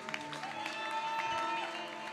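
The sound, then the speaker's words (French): An audience applauds during a Sunday worship service at church. The clapping is faint and steady, with sustained musical tones beneath it. “Est-ce que nous pouvons acclamer pour Dieu?”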